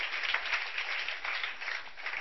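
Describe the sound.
A church audience applauds the Lord in a soft, even, continuous patter of many hands that holds steady without pauses or voices.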